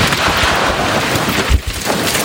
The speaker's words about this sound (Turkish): Kentte etkili olan fırtına günlük yaşamı olumsuz etkiledi. Şiddetli rüzgar karşısında yayalar yürümekte güçlük çekti.